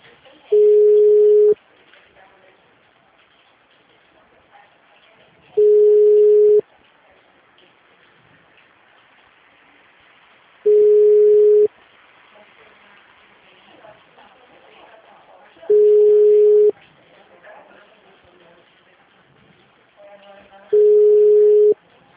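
Telephone ringing tone while a call is being placed: five identical steady mid-pitched beeps, each about a second long, sound at even intervals separated by long quiet gaps with faint background hiss.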